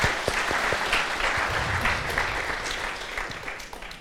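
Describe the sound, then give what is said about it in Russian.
Audience clapping: a brisk, dense patter of many hands that starts strong and gradually thins and fades toward the end. “А, да, похлопаем.”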